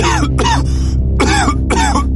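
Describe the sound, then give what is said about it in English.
A person coughs four times in harsh, loud bursts with short gaps between them, each with a rough, throaty quality. “It started with a single cough.”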